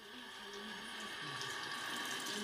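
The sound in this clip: Water runs steadily from a tap while hands are rinsed: a faint, continuous splashing hiss with no clear breaks.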